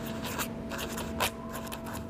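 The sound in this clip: A pen scratches across an envelope in faint, papery strokes: a few quick marks with a slightly sharper swish near the middle, over a low steady hum.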